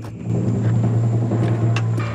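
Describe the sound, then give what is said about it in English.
An SUV's engine gives a low, steady rumbling drone as the vehicle comes to a halt. The hum holds at an even level throughout, with no voices. “but the SUV comes to a halt just a few meters ahead of him.”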